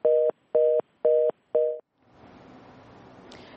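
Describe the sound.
Telephone tone from a call that did not connect: four evenly spaced, steady two-pitch beeps, followed by the faint hiss of an open line.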